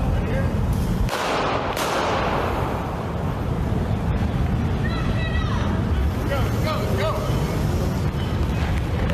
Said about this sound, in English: He just shoots the man. The man's dead. He just shot a man to death right there on the street